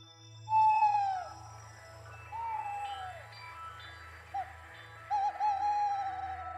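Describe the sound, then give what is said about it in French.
A tawny owl hoots at nightfall: a few wavering hoots, each sliding downward in pitch, that stand out over a steady low hum. “Il est 21h, la chouette Hulotte se réveille et annonce le début de la nuit.”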